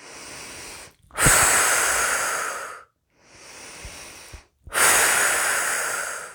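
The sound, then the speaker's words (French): Slow, deep breathing during a guided relaxation exercise: two full breath cycles, each a softer drawn-in breath followed by a longer, louder, hissing exhalation, separated by brief silences. “Et à chaque expiration, nous nous libérons des dernières tensions qui pourraient demeurer dans notre corps.”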